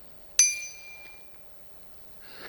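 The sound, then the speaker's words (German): A BBB 120 bicycle bell gives one bright, high-pitched ring that starts sharply and fades over about a second. A soft hiss follows near the end. “Die Fahrradglocke BBB 120, die laut Händlerbeschreibung ein lautes und deutliches Pling macht.”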